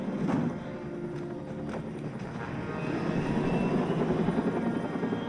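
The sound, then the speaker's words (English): Helicopters flying in a film soundtrack, a dense, steady rotor-and-engine rumble with a throbbing texture that swells slightly louder over time. “Yet more helicopters from the discount Michael Bay.”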